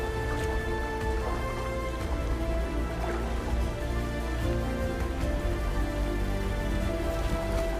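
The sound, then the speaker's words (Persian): Steady rain during a storm, pattering densely on surfaces. A continuous soft hiss with scattered drips stays fairly faint and even throughout, with no voices. “و آروم صبر میکنه تا طوفان فروکش کنه.”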